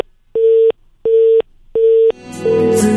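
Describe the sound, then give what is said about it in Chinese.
Three evenly spaced telephone line beeps, each a steady mid-pitched tone about a third of a second long, sound while a call is being redialed. Music follows them. “我再次尝试拨打一下啊。”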